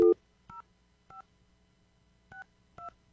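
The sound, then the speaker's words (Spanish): Telephone keypad dialing tones as a phone number is entered. A brief louder tone opens, then four short dual-tone beeps follow at uneven intervals over otherwise near silence. “Estoy marcando aquí. Creo que sí marqué todos los números.”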